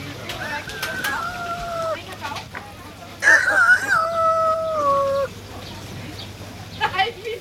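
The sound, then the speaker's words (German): A human voice imitates a rooster crowing in two drawn-out, tonal crows separated by a short pause, the second louder and longer than the first, with a few faint other sounds around them. “Darf ich mich mit einem geziemenden Kikeriki verabschieden?”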